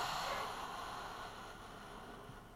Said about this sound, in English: Inhale. And exhale out the mouth.